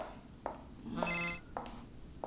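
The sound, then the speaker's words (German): A mobile phone rings in one short bright electronic burst, with a few soft knocks before and after. “Ja, liebes Handy, ich komme ja schon.”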